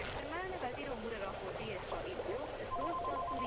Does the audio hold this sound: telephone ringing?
yes